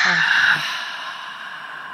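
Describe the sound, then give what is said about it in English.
A long, audible exhale through the mouth during a paced breathing exercise, breathy and steady, gradually fading over about two seconds. “And now audible exhale out for 4 seconds. I want to hear it.”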